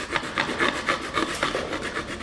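A hand file rasps against the nose cone of a model aircraft in steady, evenly spaced strokes, a soft scratchy hiss repeating roughly four times a second, with no voices.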